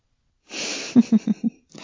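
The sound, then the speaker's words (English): Breathing close to the ear in an intimate whispered setting: a long, airy exhale, then four short, soft breathy pulses in a quick even row, and a fainter breath at the end. “Do you like it when you feel my breath against your ear?”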